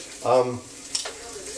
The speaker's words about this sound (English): burning myself on bacon